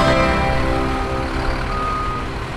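Truck reversing alarm used as a sound effect: beeping sits faintly above a loud, steady engine rumble that runs throughout, with no voices.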